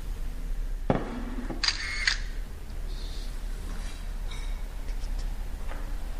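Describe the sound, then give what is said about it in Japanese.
A camera shutter clicks as a photo is taken: a sharp mechanical snap and a brief whirr, then faint ticks over a quiet background. “はい、これ写真撮っていいですか。”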